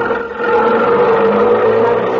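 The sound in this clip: A car driving off: a steady, mid-pitched engine drone that grows a little louder after the first half-second as it pulls away, then holds at an even level.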